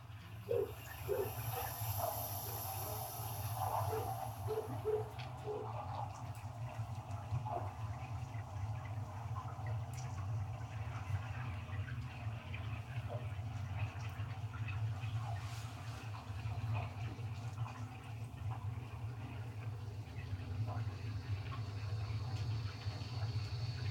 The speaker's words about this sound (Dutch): Het geluid van de stad onder water.